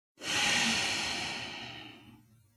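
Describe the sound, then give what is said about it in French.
A single long exhale through the nose after a held breath in an energizing breathing exercise: a soft, airy hiss that starts abruptly and fades gradually over about two seconds. “Retenez votre souffle. Puis soufflez par le nez.”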